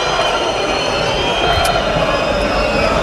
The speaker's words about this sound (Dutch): Het feest in het uitvak is al van start gegaan.